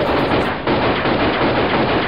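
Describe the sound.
Gunfire sound effect for a pistol fired at a zombie: a loud, dense burst of harsh noise runs steadily for about two seconds, with a brief dip early on.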